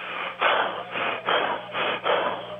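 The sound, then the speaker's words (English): Heavy, rapid breathing of someone out of breath: a rhythmic series of loud, airy huffs with brief gaps between them. “Why are you out of breath?”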